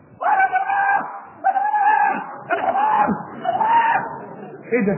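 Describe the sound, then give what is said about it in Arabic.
A man screaming, cutting into a religious talk: several long, loud, anguished voiced cries with wavering pitch, repeating in quick succession with brief gaps between them. “لقينا هوب اتقطع كلام الشيخ وداخلين على ايه؟ على واحد بيصرخ.”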